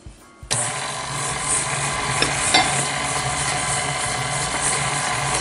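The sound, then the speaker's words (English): Steady mechanical whirring as self-rising flour and sugar are mixed for a chocolate cake batter. It starts abruptly after a brief quiet moment and holds at an even level, with a couple of faint clicks and no talking. “2 cups of self-rising flour. I'm gonna go ahead and mix that just a little bit.”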